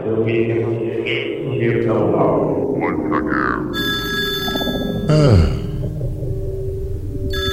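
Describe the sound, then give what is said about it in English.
A telephone bell rings steadily through the second half, its bright, even tone sitting over a dense, continuous bed of lower sound. “That's the phone now.”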